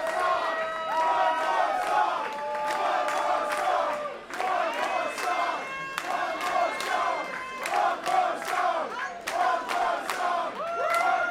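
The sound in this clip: A concert audience cheers and shouts with many voices at once, loud and continuous throughout, with sustained chant-like tones rising out of the crowd noise.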